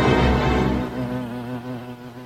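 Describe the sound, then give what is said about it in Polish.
Bees from an apiary colony buzz in a loud, continuous droning hum that holds steady throughout and eases slightly after the first second. “To bzyczenie na końcu, fantastyczne.”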